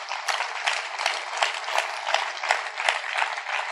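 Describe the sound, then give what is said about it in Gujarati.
An audience claps its hands in a dense, steady wave of applause that carries a regular beat throughout. “મુક્તો તાળી તો પાડો.”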